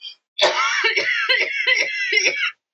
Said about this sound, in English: I can't laugh without coughing, apparently.